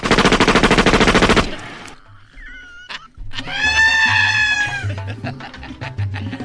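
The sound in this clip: A burst of rapid machine-gun fire rattles out as a comic sound effect right after a command to fire. It is loud and fast for about a second and a half, then gives way to quieter scattered noises.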